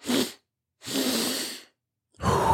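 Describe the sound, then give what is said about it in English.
Deliberate calming breaths: a short sharp breath, then a long drawn-out exhale through the mouth, followed by another breath starting. Part of a double-inhale-through-the-nose, long-exhale breathing technique, breathy and fairly loud, with no talking. “it's 2 breaths in through my nose, long exhale through my mouth, and I do that 3 times. It sounds like this.”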